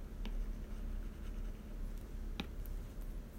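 A pen scratches faintly as straight and diagonal lines are drawn on paper, with a soft continuous rasp and a few small tapping strokes, very quiet and without talk.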